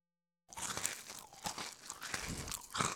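Noisy open-mouthed chewing of crunchy food: a continuous run of crunching and biting sounds that starts after a moment of silence and goes on throughout.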